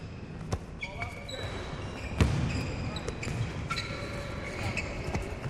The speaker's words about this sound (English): Later in a gym. Game point. To play. Barry has the ball. Another basketball player blocks him.